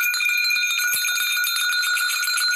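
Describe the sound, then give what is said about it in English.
Ritual bells are rung to call in spirits in a West African Dogara spirit-marriage practice. They make a continuous shimmering jingle of high, bright tones that rings on steadily throughout. “Well, before I go there, I am going to ring the bells”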